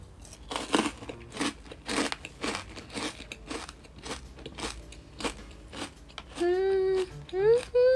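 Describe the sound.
Crunchy wedge-shaped potato chip snack, shaped like wedge-cut fries, is bitten and chewed in many sharp, loud crunches in a steady rhythm, followed by a brief hummed vocal sound near the end.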